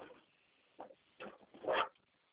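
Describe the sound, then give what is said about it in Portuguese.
Dogs bark on a phone line, three short, muffled barks in a row with the last one loudest. The sound is thin and narrow-band. “Esses cachorros aqui já falam.”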